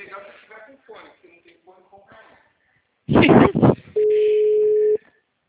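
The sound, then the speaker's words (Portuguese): A single steady ringing tone, about one second long, sounds on an outgoing phone call placed through an app. It follows a stretch of talk and a short burst of loud noise. “vou fazer o teste agora. Tô ligando pra ela.”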